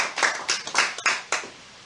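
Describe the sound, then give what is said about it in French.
Clapping at a church service, as the audience applauds for Jesus Christ while an evangelist is introduced, comes as about five sharp, evenly spaced claps in a steady rhythm, fairly faint, with no talk over them. “Applaudissons très fort le Seigneur Jésus-Christ.”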